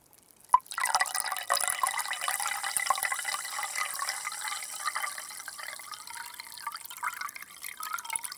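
Carbonated water poured from a glass back into a glass bottle: a sharp clink at the start, then a steady trickling, bubbling pour with fine fizzing crackle that slowly thins out near the end.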